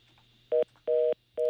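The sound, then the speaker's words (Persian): A busy tone sounds after a telephone call is cut off: three steady, even-pitched beeps in a regular on-off rhythm over a faint low hum, the last one running to the end. “با عرض معذرت فکر کنم تماس ما با آقای عابد نور قطع شد”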